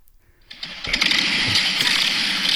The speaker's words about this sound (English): That's a motorcycle. Backfiring.